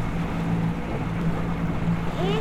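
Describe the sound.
Motorboat engine running on a lake, a steady low droning hum with a rushing wash of water over it, and a brief voice speaking.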